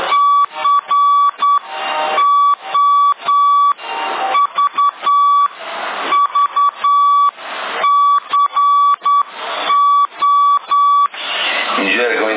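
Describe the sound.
Morse code beeps from a telegraph key sent over CB radio: a steady, fairly high tone keyed on and off in short and long pulses, repeatedly broken by bursts of harsh radio noise.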